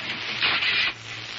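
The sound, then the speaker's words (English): Handling noise from a camera being held and focused at a ceiling: a dry rubbing scrape swells for about half a second, then drops back to a low continuous rustle. “I have your husband's camera. Uh, stand by while I focus it at the ceiling.”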